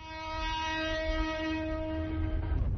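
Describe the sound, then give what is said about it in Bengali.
A northbound express train sounds a steady, loud horn as it leaves a railway station at dawn. The horn holds one pitch for over two seconds, then cuts off into low rumbling rail noise. “Kamalapur railway station থেকে ভোরের আলো ফুটতেই উত্তরবঙ্গগামী ধূমকেতু express ছেড়ে যাওয়ার মধ্য দিয়ে”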